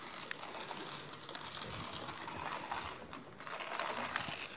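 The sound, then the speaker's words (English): A manual coffee grinder slowly grinding beans makes a continuous, faint, gritty rasp and crunch with a ratcheting texture, fairly even throughout, with no talk. “This is probably the slowest way of grinding coffee.”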